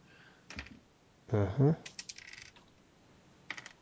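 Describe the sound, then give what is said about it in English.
Dice rattle and clatter during a tabletop role-playing game session, heard as a few short, sharp clicking bursts with a brief louder burst midway. “Why does it sound like people are rolling dice? Because I am rolling dice.”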